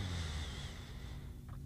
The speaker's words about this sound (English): Allow yourself to feel yourself as you breathe in.